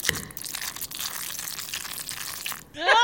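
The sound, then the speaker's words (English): Wet, squishy churning of macaroni being stirred, a steady crinkling texture that runs throughout before a brief voice enters at the very end. “Ah, stirring the macaroni.”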